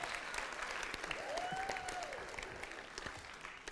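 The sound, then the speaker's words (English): Faint audience applause welcoming a guest. The clapping is steady throughout, and a brief arcing whistle cuts through around the middle. “Yeah, give him a welcome.”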